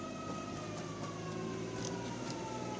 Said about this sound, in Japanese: サイレンの音ですかね。